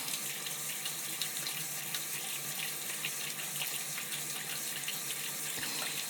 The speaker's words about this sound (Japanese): シャワーの温度はいかがでしょうか。